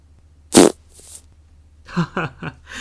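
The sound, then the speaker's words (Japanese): A single loud, short fart bursts out, followed after a pause by a person speaking. “またおならしちゃった、ごめんね。”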